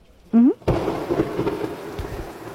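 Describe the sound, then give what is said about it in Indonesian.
A thunderstorm with rain bursts in abruptly after a short tonal sweep, then settles into a dense, steady wash of rainfall with low rumbling swells, fairly loud and without voices. “Ya hujan.”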